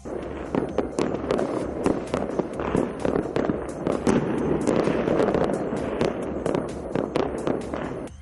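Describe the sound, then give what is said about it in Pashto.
Celebratory gunfire into the air in Sanaa, Yemen's capital: dense, rapid cracks and pops overlap without a break for several seconds, loud and sustained throughout. “په پایتخت سنا کې خلکو هوای ډزې کړې دي او خوشحالي یې منځلې”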